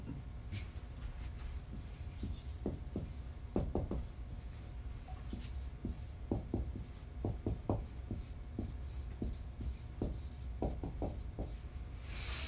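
Writing up on a board with many short, scratchy strokes in an irregular rhythm, separated by brief pauses, steady and moderately quiet throughout.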